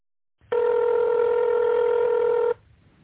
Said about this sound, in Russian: номер сотрудника, наберите его в тоновом режиме или дождитесь ответа секретаря.